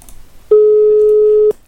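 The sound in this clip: A telephone ringing on an unanswered call: a single steady, mid-pitched ring tone lasting about one second, loud and clean, framed by faint low background noise before and after.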